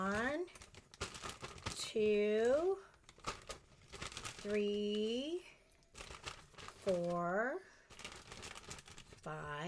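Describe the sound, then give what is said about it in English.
Small paper slips rustle and crinkle as they are shaken inside a plastic baggie, coming in short scratchy bursts between and beneath a talking voice. “So I'm going to shake our bag up. I wrote all the spell ingredients that people had submitted on little pieces of paper. They're in a baggie.”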